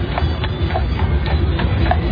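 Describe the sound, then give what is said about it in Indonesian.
Galloping hooves of a horse pulling a carriage: steady, rapid hoof beats over a heavy, continuous low rumble from the carriage. “Sangat jelas terdengar suara derap lari kaki kuda dan juga kereta kudanya.”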